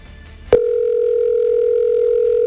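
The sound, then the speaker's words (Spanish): An unanswered phone call rings on the line. After a brief click, a steady mid-pitched electronic tone with a fainter higher overtone holds unbroken for about two seconds over faint background hiss. “Lo voy a dejar sonar hasta el fondo para que vean que yo no cuelgo ni nada.”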